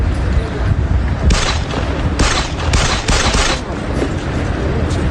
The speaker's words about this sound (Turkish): Yolda yürürken kurşun yağdırdılar.